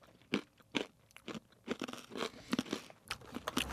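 Crunching of a honey mustard pretzel, with many crisp, sharp bites and chews in an irregular rhythm, fairly quiet and with no talking.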